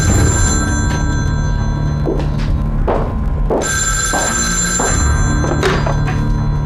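A telephone rings with a steady, continuous bell tone. A few dull thuds are heard underneath it, and no one speaks.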